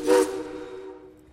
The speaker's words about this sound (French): Car il y a là devant moi, sublime, une loco-vapeur.